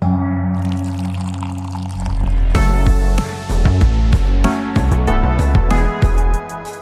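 Tea pours in a steady liquid stream that grows louder partway through and continues to the end.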